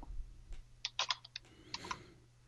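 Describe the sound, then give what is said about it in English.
Keystrokes on a computer keyboard as a search is typed, coming in a few quick clusters of sharp clicks with short pauses between them, faint and alone. “We just type in Anadrol toxicity.”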